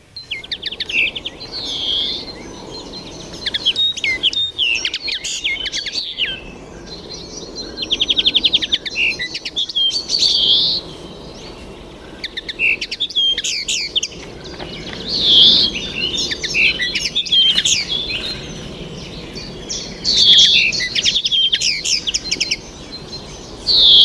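A bird sings its song: several bursts of bright, high chirps and warbled trills, each lasting a couple of seconds and separated by short gaps, loud and clear with no voices.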